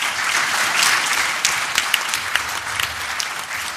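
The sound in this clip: Warm audience applause greets a speaker at a special-schools conference, a dense, steady wash of many hands clapping that holds at an even, loud level throughout, with a few sharper claps standing out toward the end.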